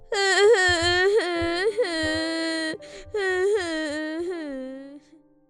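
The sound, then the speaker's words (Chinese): A person cries in loud, wavering wails and sobs. Several long, drawn-out bursts rise and break, with a short catch of breath in the middle, then fade into quiet whimpering at the end. “别哭了”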